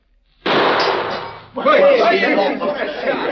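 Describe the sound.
A gunshot fired at a bottle tossed into the air: one sharp, loud burst that rings for about a second before a man starts talking.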